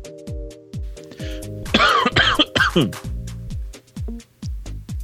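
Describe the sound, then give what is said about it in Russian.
A few harsh, breathy coughs from a person feeling unwell, bunched together in a short burst in the middle, with quieter stretches before and after. “простите, что я кашляю все-таки.”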